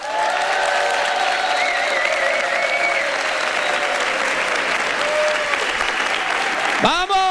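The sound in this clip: Dense, steady applause from a large audience at a live comedy talk show in Madrid, with crowd voices and cheers mixed in and a sharp rising whistle near the end.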